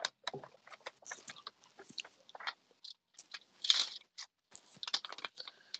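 Rustling and crinkling of paper as a sheet is pulled out to show a bill, heard as many short, irregular crackly bursts with brief pauses between them and one louder crinkle partway through.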